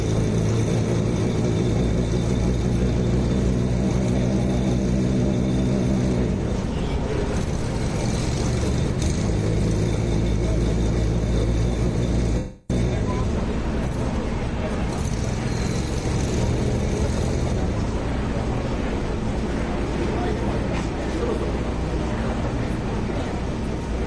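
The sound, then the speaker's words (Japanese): A disaster-response vehicle that can climb slopes up to 44 degrees, driving over a mound of earth and then timber standing in for fallen trees; its engine gives a steady low rumbling drone with constant mechanical noise, broken by one brief dropout midway. “まずはじめに土砂の山を乗り越えます。最大傾斜44度まで走行可能です。次に倒木を想定した木材を乗り越えます。”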